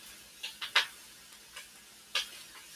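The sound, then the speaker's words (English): Dry lentils are sprinkled into a cooking pot, producing a handful of faint, sharp ticks scattered unevenly, a few close together near the start and a couple spaced farther apart later. “And then I'm going to take my lentils and I'm just sprinkling those over.”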